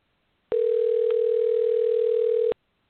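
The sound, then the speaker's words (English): A steady telephone dial tone sounds while a call is being dialed: a single pure, unwavering pitch lasting about two seconds that starts and cuts off abruptly. “I'm dialing. We're trying to reach.”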